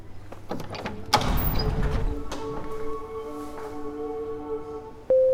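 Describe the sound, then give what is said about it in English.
A gate opens with a sharp clunk, then a rush of grinding noise, followed by sustained metallic ringing tones that linger and fade. A new tone enters abruptly at the very end. “Whoa. Your first gate opening? Yeah. You'll get used to it.”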